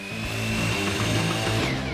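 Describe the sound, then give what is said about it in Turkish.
A saw cuts crown molding while the saw itself is held still, giving a loud, steady motor whine with a buzzing edge that holds level for the whole two seconds, with no voices. “Testereyi hiç hareket ettirmeyerek mükemmel şekilde keseceğiz. İlk işlemimizi burada yapıyoruz. Aynen böyle.”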